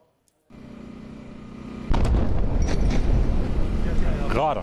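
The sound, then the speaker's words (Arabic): Airstrike explosion on the town of Mansouri in the Tyre district of southern Lebanon, a sudden loud blast that breaks over a steady background noise and leaves a heavy, continuing rumble. “غارة على الهواء يا جماعة، غارة. الآن غارة ثانية على بلدة المنصوري”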